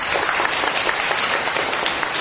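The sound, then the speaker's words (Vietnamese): Applause from a crowd: a steady, dense wash of clapping that holds at an even level for about two seconds. “tôi tán thán một tràng pháo tay dành cho chương trình TV này.”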